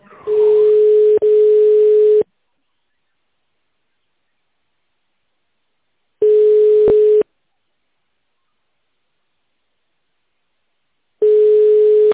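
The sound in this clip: A phone line tone plays while waiting on hold for an operator: a steady mid-pitched beep in roughly one-second bursts, two back to back, then two more separated by long silences.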